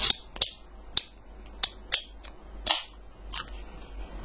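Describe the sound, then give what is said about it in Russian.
Opening a can of coconut mango Volt energy drink: several sharp, crisp clicks spaced out over a few seconds, with a brief breathy burst partway through, over a low steady background. “давайте пока откроем энергетик.”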